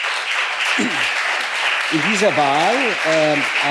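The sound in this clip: An audience applauds at a political discussion, with a steady clatter of many hands. A voice begins speaking over the clapping in the second half.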